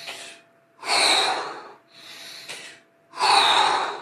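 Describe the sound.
Deep breathing during a breathwork movement, with the chest drawn in and out as the arms spread: two loud, rushing breaths with softer, airy breaths between them, and no talking.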